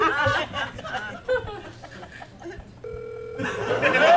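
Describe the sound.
A telephone call rings out while the caller waits for someone to answer: a steady electronic ringback tone comes through after talk and snickering.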